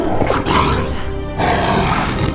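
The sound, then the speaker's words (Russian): A tiger roars at guards, a loud, rough, sustained roar broken into a few long bursts by brief pauses, with no talk over it. “Тигр Раджа рычит на стражников.”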